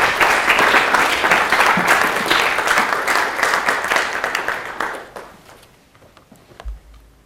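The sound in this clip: Dense, steady applause from an audience welcoming a lecture's speaker. The clapping is fairly loud, then thins out and fades to near quiet after about five seconds.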